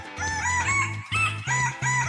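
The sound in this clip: A rooster crows loudly, with a bright, harmonic voice broken into a few stepped bursts.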